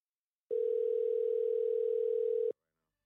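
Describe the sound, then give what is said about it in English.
A steady telephone dial tone plays while a call is placed, one unbroken, even tone at a single pitch lasting about two seconds and starting and stopping abruptly, with no other sound. “Let me dial him up real quick.”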